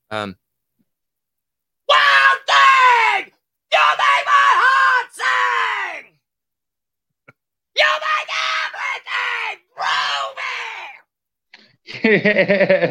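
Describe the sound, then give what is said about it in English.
A novelty scream can toy plays recorded screams: several loud, wailing shrieks in separate bursts, with short silent gaps between them. “Oh yes, gotta love the old just one more scream can.”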